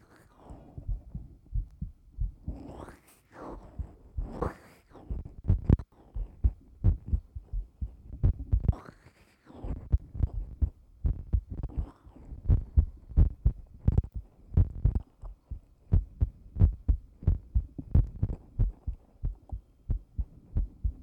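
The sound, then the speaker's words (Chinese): A fast heartbeat heard with an ear pressed to someone's chest: many deep, muffled thumps in a quick, steady rhythm, with soft rustling between some beats. “心跳好快呀，你在紧张吗？”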